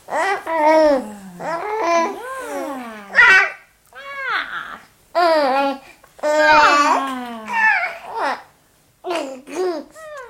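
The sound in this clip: Baby babbling with small cries from an infant not yet talking: a string of short, high, melodic vocal bursts with rising and falling pitch glides, separated by brief pauses, fairly loud throughout.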